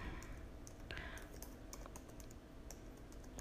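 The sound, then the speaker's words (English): Typing on a computer keyboard, heard as a quiet, steady run of many quick key clicks with no voices. “Give me just a second. Let me type it out here so I can give that to you.”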